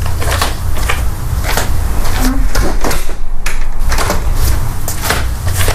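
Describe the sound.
A door is opened with a busy run of wooden clacks, knocks and rattles that come in quick, uneven bursts, loud and close.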